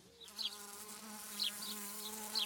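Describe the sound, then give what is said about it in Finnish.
Honeybees buzzing in a hive make a faint, steady, low droning hum that continues throughout with no voices. “Mehiläispesässä voi olla kymmeniä tuhansia työläisiä ja yksi kuningatar.”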